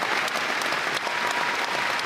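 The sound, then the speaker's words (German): A concert hall audience at a concert performance of a musical at a music festival in Lübeck gives a standing ovation: dense, steady applause with a continuous wash of clapping and no pauses. “vor ihm ein Saal, der steht und jubelt.”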